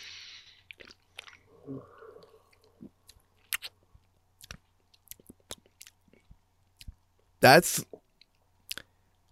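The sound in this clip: Faint chewing of a flavored Wingstop chicken wing being tasted: many soft, scattered clicks, bites and wet crunches in quiet, with one louder crunch near the end.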